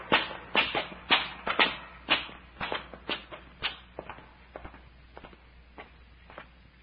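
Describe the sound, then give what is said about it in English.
Footsteps of a small group climbing a long flight of steps: many quick, scuffing treads in a steady run that grows gradually fainter toward the end, with no talk. “This climb is making me dizzy. I must be getting old. Oh, it ain't age, Doctor. We've climbed up more than a mile of these steps.”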